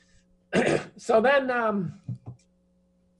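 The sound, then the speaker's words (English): A man coughs into a microphone: one harsh, loud burst followed by a voiced, rasping throat-clearing sound, then a couple of softer trailing grunts. “excuse me, I cough out viruses on my microphone.”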